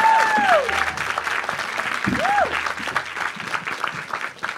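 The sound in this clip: An audience applauds as a guest walks onto the stage at a live careers talk. The clapping is dense and steady, easing only slightly toward the end.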